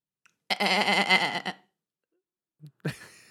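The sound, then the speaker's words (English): A goat gives one long, quavering, nasal bleat of about a second that wavers in pitch, clearly heard against silence. “The bleating of a goat.”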